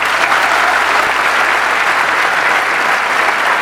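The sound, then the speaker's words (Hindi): An audience at a talk session applauds, with dense, steady clapping that holds at an even, loud level throughout. “अरे वाह, let's give a big hand for her.”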